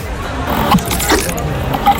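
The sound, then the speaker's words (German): A ketchup dispenser at a wine festival makes busy mechanical clicking and ratcheting, a loud, continuous grinding clatter. “Und es ist ein Ketchup-Spender.”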